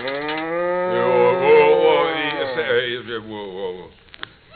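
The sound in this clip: A cow moos in a barn before morning milking: one long, loud, low moo that wavers and then fades away near the end.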